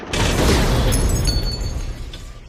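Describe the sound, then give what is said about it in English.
A car lands with a heavy crash after somersaulting through the air: a loud, broad impact with a brief metallic ring, then a rumble that slowly fades. “He butts the car up into the air. It somersaults. Underneath it, Penny watches as it flies over her head and crashes down behind her.”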